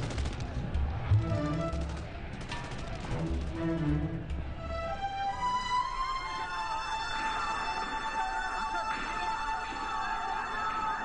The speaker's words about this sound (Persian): نیروهای شهربانی اسلحه هاشونو به سمت مردم گرفتن و کشتار شروع شد.